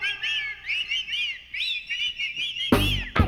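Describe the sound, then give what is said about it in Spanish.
Many audience members whistling together at a children's clown party, wavering, overlapping tones sliding up and down, closing with a brief loud burst of crowd noise. “A silbar, todo el mundo va a silbar.”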